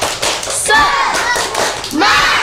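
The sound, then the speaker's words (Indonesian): Children in a class clap and call out together in a spirited cheer led by their teacher. A few sharp hand claps and thuds mix with their young voices chanting in unison. “Coba kalau semangat, tepuk sekali. Tepuk sekali. Tepuk semangat.”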